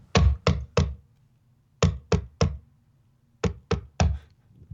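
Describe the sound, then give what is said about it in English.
A cane pounded into a floor as a Foley recreation: nine heavy, dull thuds in three quick groups of three, each group separated by about a second of quiet. “He's just constantly doing that? Yeah, just pounding his cane into the floor.”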